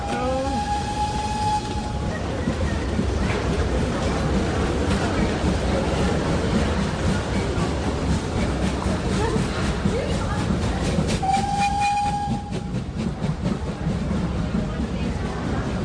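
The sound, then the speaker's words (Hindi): A train arrives at a station with a steady, loud rumble and clatter of wheels on track. A tonal horn sounds briefly near the start and again toward the end. “Low train आ गई”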